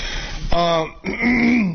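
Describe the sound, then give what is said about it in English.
A person clears their throat twice, two harsh, loud, partly voiced rasps in quick succession, the second longer and rougher than the first. “Let me turn off the mic and finish clearing my damn throat.”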